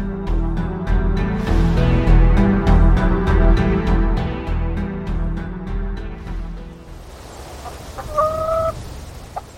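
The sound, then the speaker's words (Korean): Chickens clucking as they eat feed in a quiet farmyard: many rapid, rhythmic clucks and pecking sounds, loud and steady, ending with a few tonal bird calls. “한적한 운막 마당에 닭 몇 마리가 먹이를 먹고 있을 뿐 고요만 감돌았다.”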